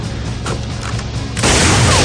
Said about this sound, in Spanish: Rocket corta de un disparo la cuerda que ata la bomba al helicóptero.